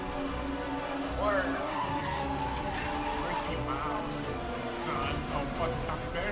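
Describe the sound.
Racing cars screech and skid in a Burnout driving video game: several sharp tire squeals sweep over a steady engine drone, at a moderate level throughout.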